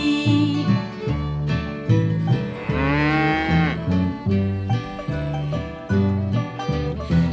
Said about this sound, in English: the cow is talking to me